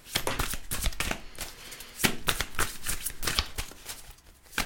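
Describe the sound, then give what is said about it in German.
A deck of soul cards is shuffled by hand in many rapid, crisp riffling bursts that rustle and flutter in quick succession with brief pauses, and no voices are heard. “Da werden wir jetzt mal mischen und gucken, was wir hier an Karten für den Februar haben.”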